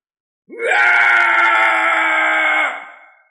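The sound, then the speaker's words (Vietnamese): A long scream rings out from far off across a mountain range, a sustained harmonic cry that swells in pitch at the start, holds steady and loud for about two seconds, then tapers away. “Phía xa truyền đến một tiếng thét dài, khắp cả dãy núi đều rung chuyển.”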